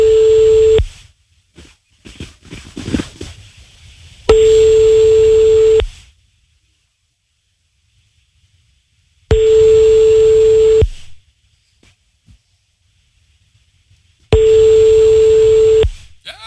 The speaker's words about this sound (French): On recompose le numéro de téléphone.